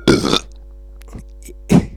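A man burps, or tries to: two short, rough, low bursts, one at the very start and one near the end, with a quiet stretch and faint hum between them.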